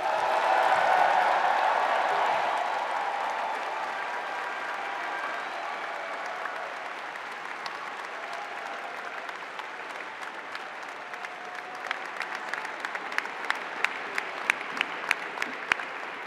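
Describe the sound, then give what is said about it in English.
Spontaneous applause at a Cornell University PhD ceremony starts as a loud, dense wash of clapping, eases to a steady level, then thins into scattered, distinct claps toward the end. “That was a marvelous, spontaneous set of claps right there”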